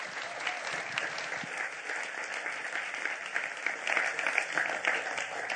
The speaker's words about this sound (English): Can we please give a huge Grace Church welcome for Sydney Nevis as he comes to speak to us?